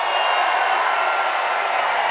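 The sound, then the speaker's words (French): Excited concert audience in Marseille cheering, a dense, steady roar of crowd noise that holds at an even, loud level without a break. “Ah ouais, mais le public est en folie, là. Est-ce qu'on peut dire qu'il y a de l'ambiance?”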